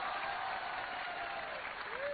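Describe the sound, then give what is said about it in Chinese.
Audience applause at a Chinese crosstalk comedy show, steady dense clapping throughout, with a voice faintly audible over it. “我观众怎么不能鼓掌呀、啊？我这刚要鼓掌，兄弟。”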